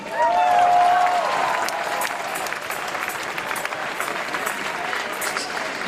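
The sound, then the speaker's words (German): A crowd of about 25,000 people at a Berlin rally cheers and claps in a dense, sustained roar, loudest in the first two seconds, with a whistle near the start, then settling into steady applause. “25.000 Leute sind hier. Ja, hallo Berlin. Hörst du das? Hörst du diese Leute hier, die wirklich was für unsere Zukunft machen wollen?”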